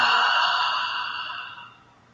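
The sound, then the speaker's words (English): A deep, voiced exhale after a nasal inhale during a guided breathing meditation, heard as a breathy sigh that starts strong and fades steadily over about two seconds. “And let's do one more deep inhale through the nose. And exhale with sound.”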